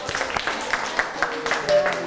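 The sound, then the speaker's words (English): Children clap for a classmate in an English-language class. Scattered, uneven claps sound under and between voices of people talking. “Clap your hand for your friend. Good job.”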